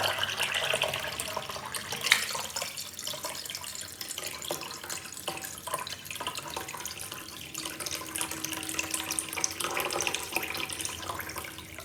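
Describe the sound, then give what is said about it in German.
Wine from a last bottle is poured into a toilet, making a quiet, continuous splashing and gurgling stream of liquid with one sharper splash early on and no voices. “Und er hat seine letzte Flasche Wein ins Klo gekippt und ist dann rausgegangen.”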